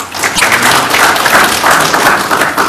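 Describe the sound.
Audience applause welcoming a speaker to the stage: loud, steady clapping from many hands, sustained without pause throughout.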